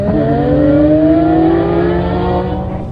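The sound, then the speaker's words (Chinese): Race cars launch from the start of a one-day race held in a deep mine pit. A loud, continuous engine roar climbs steadily in pitch as the cars accelerate away, then eases slightly near the end. “一辆辆赛车飞驰而出。却不敢想象的飞尘爆土。”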